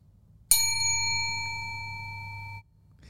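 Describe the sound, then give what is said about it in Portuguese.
A small bell struck once gives a bright, clear ring with shimmering high overtones. The tone rings steadily for about two seconds, fading slightly before it is cut short, with quiet around it. “Ele pega um sino e bate. Ting!”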